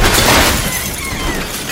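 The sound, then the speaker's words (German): Car windshield glass shatters as a fist smashes through it, a loud sudden burst of breaking, crackling glass that thins out over under two seconds. “Ich stieß meine rechte Hand durch die Windschutzscheibe, packte den Schädel des Fahrers und riss ihn aus dem Wagen.”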